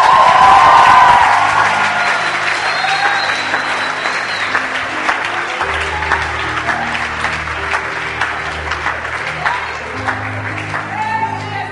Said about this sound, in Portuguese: Palmas para Deus.